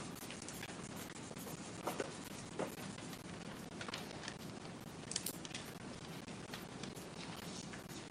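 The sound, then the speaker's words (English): Something is written down by hand, a faint, continuous scratchy rustle of pen on paper broken by a few small taps and clicks, with no speech. “So give me a second, I'm going to write something down.”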